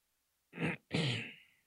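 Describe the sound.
A person clears their throat in two rough, raspy bursts separated by a short pause, the second one longer and trailing off, with no other sound around it.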